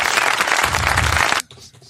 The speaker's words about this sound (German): Applaus bitte einspielen.